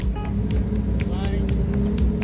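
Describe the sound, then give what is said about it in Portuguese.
A Porsche rally car's engine drones low and steady as the car pulls in, with a man talking over it throughout. “Está aqui também a chegar mais um dos Porsche.”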